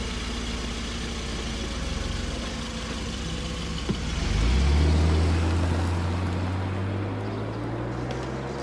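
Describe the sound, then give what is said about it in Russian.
A car engine idles with a low steady hum, then revs up into a louder drone that rises in pitch as the car drives away. “садится в машину, выбрасывает букет роз и уезжает.”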